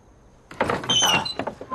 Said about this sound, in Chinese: 开门啊